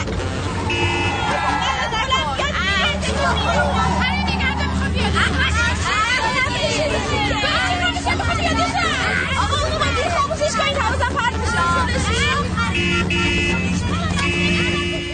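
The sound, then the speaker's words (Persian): A minibus driving through busy city traffic, surrounded by repeated car horn toots over a dense, continuous wash of engines and crowd babble, loud throughout, with voices talking in the mix. “از بین ماشین رد میشن”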